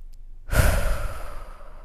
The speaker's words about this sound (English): I'm just going to breathe for just a moment.